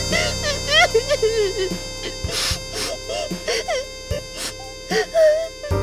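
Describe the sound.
A child's voice imitates crying, with wavering wails and whimpering sobs in short bursts separated by pauses.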